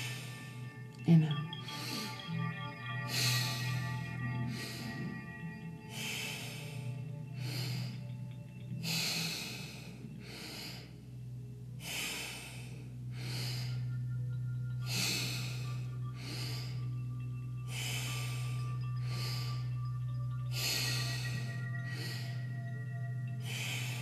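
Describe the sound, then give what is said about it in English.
Pranayama alternate nostril breathing, with many slow, forceful inhales and exhales through the nose in an even rhythm over a low sustained drone. “Out through left. Inhale both. Out right. Inhale. Exhale. Inhale. Exhale.”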